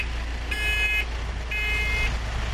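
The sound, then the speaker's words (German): A community minibus pulls away from a supermarket stop with a low, steady engine rumble. Two long, high electronic beeps sound over it, one after the other. “So, da fährt er los, ne? Der Bürgerbus von Salzhemdorf.”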